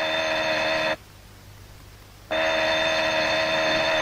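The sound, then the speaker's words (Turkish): Telephone ringing in two long, bright, steady bursts, separated by a short silent pause, with no talk over it. “Dur, telefonu açma.”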